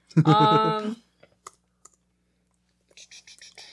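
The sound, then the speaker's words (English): Someone types one-handed on a laptop keyboard. A short stretch of voice comes first, then a few slow, scattered key clicks, then a quicker cluster of light taps at the end. “I have to hold my laptop in one hand, so I'm typing one-handed, so it's just a little bit slow.”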